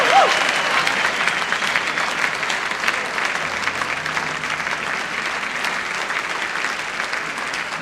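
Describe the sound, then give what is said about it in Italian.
Audience applause at an Italian live music show as a guest singer from London is welcomed, a dense, continuous round of clapping that starts loud and gradually eases off. “Per favore, ancora un applauso.”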